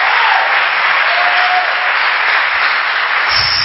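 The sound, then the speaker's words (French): A church audience applauds for their pastor with a continuous, even roar of many hands clapping, loud and unbroken from start to finish. “applaudissons pour notre pasteur.”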